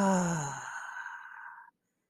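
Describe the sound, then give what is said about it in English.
A deep breath is pushed out during a guided breathing exercise: one long, breathy exhale that begins strongly, thins out and stops abruptly. “let's just take a deep breath in through our nose, hold it, and then push that air out. Join me. Let us breathe in. Hold and exhale.”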